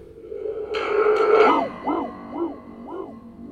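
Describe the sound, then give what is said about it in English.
A thunder tube, a cardboard tube with a drum membrane and a spring, played with a mouth over its end. After a rough crashing rumble, four hollow, hooting wah-like swells follow one another, each bending up and then back down in pitch. “If I put my mouth over it, I can modulate that sound.”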